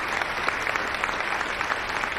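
Applause at a mountain rescue fundraising event, dense and steady clapping from a crowd that holds an even loudness throughout, with no voices over it.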